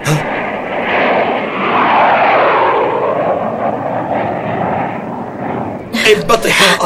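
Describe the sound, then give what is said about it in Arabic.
An enemy warplane roars overhead as a deep, rumbling drone that swells loudly, then gradually eases. A voice cuts in near the end. “انبطحا أرضا، هذه طائرة للعدو دخلت علينا.”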